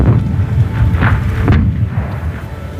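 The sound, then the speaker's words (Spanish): Russian artillery fire booms while guarding a concert: a loud, continuous low rumble broken by a few duller blasts that rise out of the roar. “Temblaron ahí las lámparas de araña. Era la artillería rusa que tenía la misión de proteger el concierto, espantando durante hora y media cualquier proyectil alemán.”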